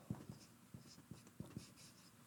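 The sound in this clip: Faint scratchy strokes of writing on a board come in a quick series of several short, uneven marks, soft and close together, with no speech over them.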